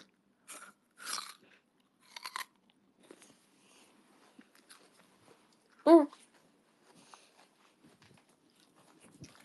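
Someone bites into a peach and chews it, with a few crunchy bites spaced apart and one louder bite near the middle. Soft, faint chewing sounds fill the gaps between them.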